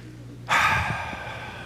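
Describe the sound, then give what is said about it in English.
One deep breath taken during a pause at a Christmas Eve church service. It starts abruptly as a loud, airy rush, then continues as a steady breathy hiss that slowly eases off, with no talking. “Take a deep breath.”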